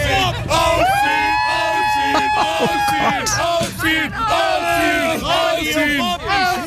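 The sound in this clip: A festival crowd cheers and yells in the infield after waiting a long time in blazing sun for the opening. Loud whoops and shouts overlap with crowd babble in a continuous, excited roar that barely dips.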